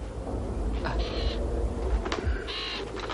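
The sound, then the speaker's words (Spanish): A crow by a fresh grave in an abbey cemetery gives two harsh, short caws about a second and a half apart, over a low, steady rumbling background. “Observa a un cuervo picoteando la tierra de una sepultura reciente.”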